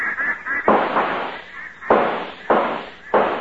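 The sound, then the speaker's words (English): Gunshots from hunters firing at ducks on a lake: four sharp, loud blasts at irregular intervals, each cracking suddenly and decaying into a short rumble. “Now, don't shoot too fast, fellas. Look at them come.”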